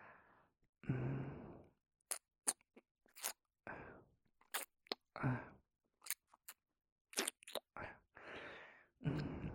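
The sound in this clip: Wet licking mouth sounds come in many short, sharp smacking bursts, broken by a few longer, breathy sigh-like exhales and brief silences.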